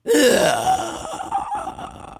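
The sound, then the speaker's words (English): A voice actor imitates a ghostly inhaling sound with a strained, breathy, voiced gasp that is loud at first and then trails off into a rough, wavering breath, heard alone. “That's just kind of a ghostly inhaling kind of sound.”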